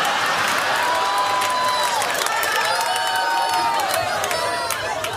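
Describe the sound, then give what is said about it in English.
Studio audience on a talk show whooping and hollering, a sustained wall of crowd cheers with shrill whistle-like whoops rising above it, steady and loud from start to finish. “And you hear the audience, they were just hooping and hollering.”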